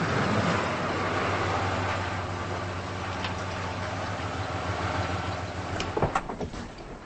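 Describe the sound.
Car engine as the vehicle pulls into a driveway: a steady low rumble that gradually eases, followed by a few sharp clunks near the end.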